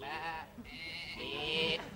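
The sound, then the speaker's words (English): A sheep bleating: a few wavering, nasal harmonic bleats follow each other closely, faint and alone. “No, that's definitely a sheep.”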